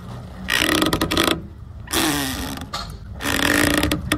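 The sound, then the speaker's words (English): Dock lines tighten on a rocking boat in three long, loud, rough creaking strains. Each has a groaning, grinding texture, and short quieter lulls separate them. “Mary Dozier, who said it's dock lines tightening on a rocking boat. That's the correct answer.”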